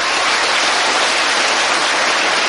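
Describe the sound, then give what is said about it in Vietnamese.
Applause from a group, a dense, loud and steady clatter of clapping sustained for the whole stretch without any voices. “Hay quá, cho tràng pháo tay.”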